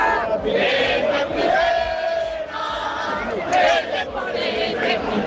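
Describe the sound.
A celebrating crowd in the streets and at the Riazor fan zone, many voices chanting and cheering together in loud swells, with steady babble between the louder chants.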